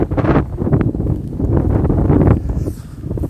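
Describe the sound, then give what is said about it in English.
Wind buffets a microphone outdoors, making a low, rumbling roar that stays loud and continuous throughout, with gusty swells and no clear voices. “Sorry for the wind. I don't know if you can hear it.”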